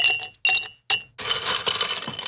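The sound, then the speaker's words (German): Ice cubes clink in a glass: three bright, separate clinks, then a longer rattling jingle as the cubes knock together. “Ja, so ein Eiswürfeli.”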